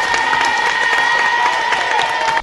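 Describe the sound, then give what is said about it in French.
An audience gives a steady ovation of applause and crowd noise for pupils from a school in Tunis after their song. The clapping stays even and full throughout, with a sustained tone above it, then cuts off abruptly. “Une ovation pour les Tunisiens.”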